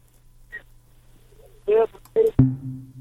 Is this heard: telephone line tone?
yes